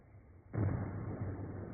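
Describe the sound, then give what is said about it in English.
A controlled explosive blast adds fill at a massive dam site: after half a second of low hum, a sudden deep rumbling roar bursts in and holds steady, muffled and bass-heavy, to the end. “The control blast adds more fill to the massive dam site.”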